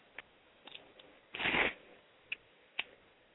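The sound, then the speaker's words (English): Tarot cards being turned over during a reading: a few soft, brief card flicks spaced through the quiet, with one longer papery slide in the middle. “Okay, Diane, I'm going to turn a couple of cards for you and see what comes up.”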